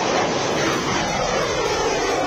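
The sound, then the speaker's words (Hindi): Military aircraft fly during a joint air exercise at an airbase in Jodhpur, producing a loud, steady roar of engine noise. The wide, even rumble continues without a break, and no voices can be heard. “Veer guardian युद्धाभ्यास में यह शौर्य की उड़ान है।”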